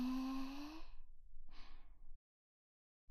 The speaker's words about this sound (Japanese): じゃあ、ゆっくり深呼吸して。吸って、